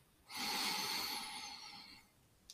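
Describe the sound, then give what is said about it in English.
A single long, full breath drawn in during a slow breathing exercise: a smooth, airy hiss that starts abruptly, holds steady and loud for nearly two seconds, then eases off gradually, with no voice. “Count out 3 slow and perfect breaths. 1 long, full breath in,”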